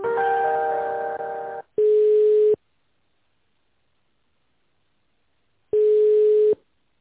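Telephone line tones heard while a call is being transferred: a chord-like tone lasting under two seconds, then a single steady beep, a few seconds of silence, and another identical beep.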